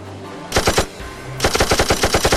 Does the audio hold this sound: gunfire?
yes